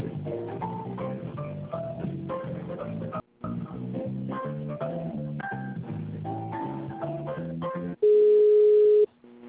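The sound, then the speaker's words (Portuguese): A telephone ringing tone plays during a call transfer: one steady tone of about a second that comes after a stretch of electronic hold melody, which has a brief gap near its middle. “Por favor, aguarde. Estamos transferindo sua ligação.”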